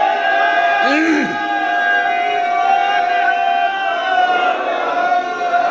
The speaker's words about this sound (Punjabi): ਇਹ ਇੱਕ ਸਿੰਘਾਂ 'ਚੋਂ ਜਕਾਰਾ ਛੱਡੋ ਵੀ ਸ਼ਾਬਾਸ਼ ਗੱਜ ਕੇ।